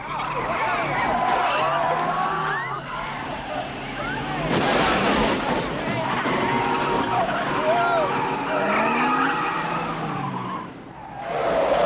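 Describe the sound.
A reckless ghost taxi skids with loud, sustained tire squeals and roaring engine noise for the whole stretch, overlaid with shouting voices.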